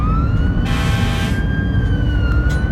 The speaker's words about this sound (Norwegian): Med fulle sirener kjører de mot sjøen.